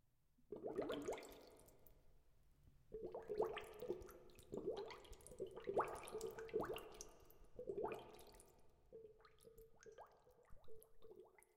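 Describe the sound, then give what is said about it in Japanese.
Flowing water with dripping and gurgling splashes, faint, coming in several uneven bursts over a low, steady watery hum. “さあ、水が流れてまいりました。水の流れの音が聞こえますか？”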